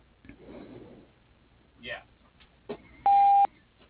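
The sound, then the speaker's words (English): A voicemail beep tone: a single short, steady beep sounds right after a recorded voice finishes speaking. “Please leave a message after the tone or dial 0 for the operator.”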